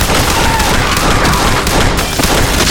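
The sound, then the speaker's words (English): Rapid gunfire from two Colt revolvers, a Peacemaker and a spare, emptied into a building's interior; many loud shots blur into a dense, continuous crackling barrage with no clear gaps. “pulled his peacemaker and his spare Colt from leather, and cocked them. Then he rose to his feet and sprayed the inside with lead.”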